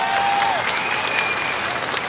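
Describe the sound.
An audience at a stage show breaks into applause for a performer, with thick, continuous clapping at an even level throughout.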